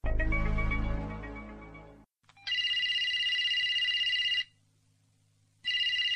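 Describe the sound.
A telephone rings for an incoming business call: an electronic trilling ring plays in bursts of about two seconds, separated by a short silence, following a fading tonal sound at the start.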